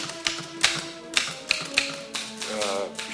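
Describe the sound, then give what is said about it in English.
Typewriter keys clatter as names are typed in a small office, a run of sharp mechanical taps struck at an uneven pace, each key strike crisp and distinct against a quiet background. “Later, in Stern's small office, Schindler paces. Stern types the names, Dresner and Rosner.”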